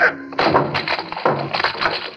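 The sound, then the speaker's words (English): Loud cracking smashes of a tall, white, locked cabinet being broken open, a few heavy splintering bursts with rattling debris between them. “Locked. Lock, Doctor. Smash it open. Open it. I do.”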